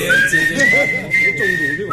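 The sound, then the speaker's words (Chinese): Whistled melody in a sweet Cantonese pop song, slightly out of tune, carried as a continuous wavering high line over the band's accompaniment. “但我觉得他这个口哨吹得不好，有点不准”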